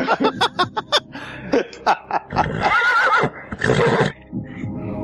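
A horse whinnies in a loud, drawn-out neigh with a wavering pitch, following a run of short sharp bursts and broken into two long stretches near the end.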